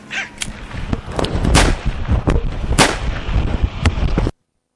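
Police gunfire, hundreds of bullets fired in rapid succession: many sharp, loud cracks in irregular bursts that end abruptly.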